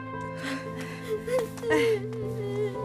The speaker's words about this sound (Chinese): 不哭了啊，大孩子了，不哭了啊。